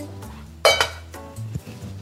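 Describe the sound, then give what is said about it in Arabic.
Pots and utensils clink as cooking of vegetables begins, a few sharp metallic clatters and knocks over a low background hum. “طيب هلا بدنا نطبخ الخضرة.”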